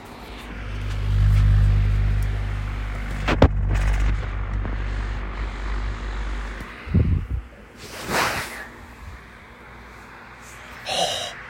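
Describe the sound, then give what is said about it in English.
The motor of an old Mac computer, about ten years old, runs just after it is switched on, giving a steady low drone for several seconds. A few irregular bumps and rustling noises follow. “Of course, it turns on nice. You can hear that motor, though. That motor's always sounded like that, though.”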